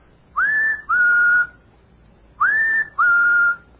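A person whistles an imitation of a bird's call: four clear, fairly loud notes in two pairs. Each note opens with a quick upward slide, then holds a steady pitch, with a short pause between the pairs.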